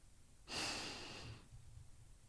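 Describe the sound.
A single deep breath drawn in during a guided relaxation exercise, heard as a soft, airy hiss that swells quickly, lasts about a second, then fades to quiet.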